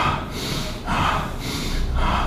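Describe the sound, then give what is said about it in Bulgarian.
Forceful rhythmic breathing during bhastrika yogic breath practice: loud, noisy rushes of air pulse in a steady, quick cycle of a few breaths, with no talk. “Сега влез в бастрика 30 пъти само.”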